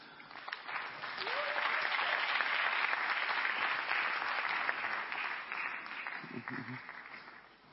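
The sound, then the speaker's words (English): Sustained audience applause at a men's convention session as a guest is welcomed to the table, a dense, steady clapping that holds loud for several seconds before dying down toward the end. “Shall we please give our hand as we welcome Deacon Zach?”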